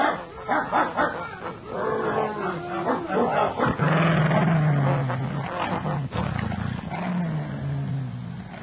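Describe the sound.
Several dogs bark and whimper as they are set on other animals to attack; loud, dense, continuous barking with snarling and whining layered throughout.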